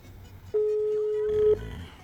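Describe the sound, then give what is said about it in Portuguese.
A telephone is dialed for a call: a single steady electronic tone sounds for about a second, then stops abruptly. “Vou ligar pro cara aí, pra ver se ele sabe.”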